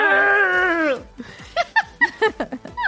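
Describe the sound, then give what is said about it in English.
A human voice imitates huskies howling with one sustained tonal howl lasting about a second and dropping at its end, then a few short, choppy vocal bursts. “Is that supposed to be a dog howling? Yeah. This is what the huskies sounded like.”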